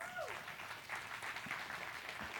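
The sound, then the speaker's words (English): A church audience gives a round of applause for the farmers among them, producing very quiet, steady, dense clapping that continues evenly throughout. “Farmers work really hard. Let's give them a round of applause.”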